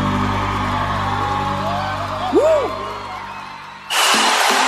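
Football supporters cheer as a crowd, a steady roar with one rising and falling whoop partway through, then a sudden louder surge of cheering near the end.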